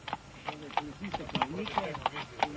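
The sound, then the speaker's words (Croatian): Slovenian border police horses patrol the border with Croatia, their hooves clip-clopping in a steady, even walking rhythm of sharp knocks, while a person talks over them. “Slovenski policajci obilaze granicu sa Hrvatskom na konjima.”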